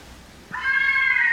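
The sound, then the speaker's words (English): A fisher cat screams in the woods behind a house. After a quiet moment, a single shrill, sustained cry starts abruptly and holds a steady high tone to the end. “The sound that you're hearing, the screaming, this is the sound of the fisher cats in the woods behind my house.”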